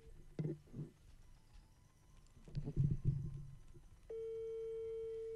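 Steady single-pitch telephone line tone as a call is placed, starting abruptly after a few low thumps and rustles and holding level to the end.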